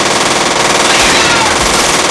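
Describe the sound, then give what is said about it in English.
Machine guns fire as soldiers storm a room in a dramatic combat scene, a loud, dense, unbroken roar of rapid gunfire lasting the whole moment. “Soldiers flood into the room, machine guns blazing. The spray of bullets rips a bloody path into the backs of two rebels.”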